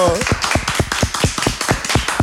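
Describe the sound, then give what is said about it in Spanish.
Clapping in congratulation of a student honored as first escort of the national flag: many sharp claps in a quick, fairly steady rhythm, with a voice briefly audible at the start. “¡Felicitación! ¡Aplauso!”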